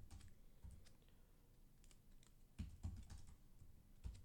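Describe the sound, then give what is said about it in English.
Fast typing on a computer keyboard, many quick clicking keystrokes in an uneven stream, fairly faint, with no voices. “I just wanted to type something real fast, really loudly, so that everyone could hear.”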